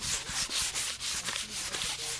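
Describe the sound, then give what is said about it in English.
Sandpaper rubs along a handmade wooden hunting bow, in steady back-and-forth strokes, each a soft rasping hiss, repeating at an even rhythm with no voices. “is sanding down his newly handmade version of another ancient hunting weapon. It's cutting and shaping the bow and then removing wood for the balance”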